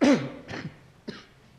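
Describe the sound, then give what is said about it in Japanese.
A preacher with a hoarse voice, strained from singing too loudly, coughs during a sermon. One strong, harsh cough burst is followed by a few weaker, breathy bursts, fairly faint and with no talk. “私の声聞きにくいから今日ちょっと一回咳します。”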